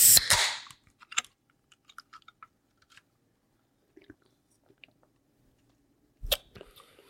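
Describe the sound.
A can of Liquid Death flavored sparkling water cracking open with a sharp, loud burst of fizzing hiss, followed by scattered small clicks and taps and another short burst near the end.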